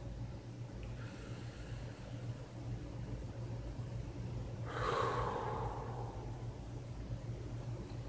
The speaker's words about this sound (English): take a deep breath in. And slowly let it out. Again.